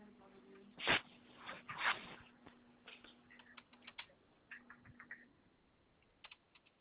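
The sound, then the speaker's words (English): Typing on a computer keyboard produces irregular, quiet key clicks and taps, with a few louder strokes near the start and lighter scattered clicks after, and no clear talk. “I just have to type up the information, and then I'll reach out to the DOD once I get done with this note.”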